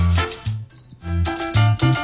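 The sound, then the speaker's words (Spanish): Cricket chirping: short, bright, pulsed chirps come in a few quick bursts over a loud musical backing with strong bass notes. “Escúchelo ahí, escúchelo. ¿Qué me lo hicieron? Un grillo”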